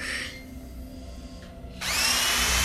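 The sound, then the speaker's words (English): A hand drill for a tray of surgical instruments whirs in a brief burst. After a quieter pause, a louder, high-pitched whine starts and rises in pitch. “Lynn tests a hand drill and adds it to her tray of surgical instruments.”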